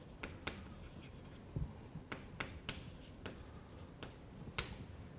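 Chalk scratches and taps across a blackboard during a math lecture, a faint, irregular run of short strokes with no voices.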